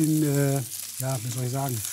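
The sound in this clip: Chopped shallots fry in a pan, a steady sizzling hiss running beneath someone talking for about two seconds.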